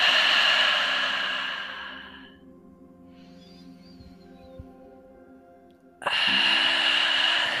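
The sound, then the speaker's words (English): Deep breaths are drawn in through the nose and blown out through the mouth during a guided relaxation exercise: long airy exhales with a quiet pause between them, over soft sustained background music. “Taking 3 deep breaths in through the nose and out through the mouth.”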